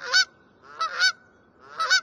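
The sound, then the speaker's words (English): A Canada goose gives a few loud, nasal honks, spaced in short bursts with quiet gaps between them, clear and alone. “Or this familiar cry of the Canada goose.”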